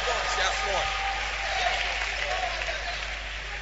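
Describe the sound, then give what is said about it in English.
Audience applause fills the whole stretch as a dense, steady wash of many hands clapping at an even loudness, easing slightly toward the end. “Clap your hands for her.”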